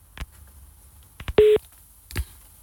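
Telephone dialling before a call to a restaurant: a few sharp clicks, then one short steady electronic beep and a final click. The sounds are sparse, brief and fairly quiet, with no voices.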